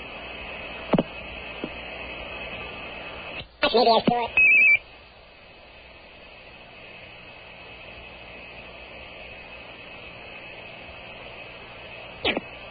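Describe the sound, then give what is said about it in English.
A telephone number being dialed: a short cluster of dialing tones and clicks rises briefly out of steady background hiss, then the line settles back to a low, even hum. “I'm sorry, dialed incorrectly.”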